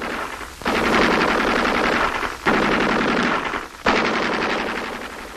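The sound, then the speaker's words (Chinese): Rapid, loud machine-gun fire from an enemy sentry gun comes in three long sustained bursts separated by brief pauses, with dense, rattling shots and no voices. “这是敌人值班机枪。”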